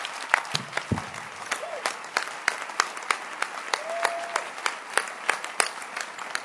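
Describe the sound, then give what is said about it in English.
An audience clapping their hands during a church sermon, many sharp, distinct claps in a fairly steady rhythm, with a brief voice sound partway through. “Can you clap your hands for my pastor for me?”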